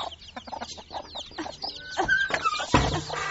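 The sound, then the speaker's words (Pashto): A hen clucks softly among her newly hatched chicks, whose many thin, high peeps overlap the low clucks throughout. “ته راشه چې چرګې دې بچي ایستلې.”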